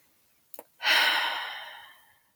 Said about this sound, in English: Take a deep breath.